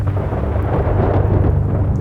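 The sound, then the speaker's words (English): Distant thunder rumbles low and continuous over a wet residential neighborhood, with steady rain hissing throughout and no break in the sound. “the eerie silence of the neighborhood was only interrupted by the distant rumble of thunder.”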